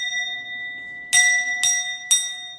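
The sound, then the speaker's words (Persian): A small bowl-shaped bell with a leather strap, struck by hand, rings with bright sustained tones. It is hit four times at steady intervals, the last at the very end, and faint ringing already sounds before the first strike. “این زنگه. خب یه دونه کاسه داره، یه بند چرمی بهش وصله، با دست راحت میشه باهاش هم ساز زد. حالا بزنم.”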